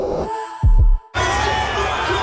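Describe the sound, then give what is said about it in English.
A roaring crowd at a Broncos home game: a brief sound and two deep, heavy thumps give way to a broad, sustained crowd roar that holds loud and steady to the end. “There's absolutely nothing like a Broncos home game. The roar of the crowd, the sea of maroon and gold, truly the best seat in the house.”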